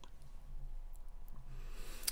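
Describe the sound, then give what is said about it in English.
A computer mouse click: one sharp, crisp tick stands out near the end over a low, steady hum, with a few fainter ticks earlier. “All right, so we're going to go right here. I'm going to go by here and click this thing right here, and we're going to go look at Antoine Woods.”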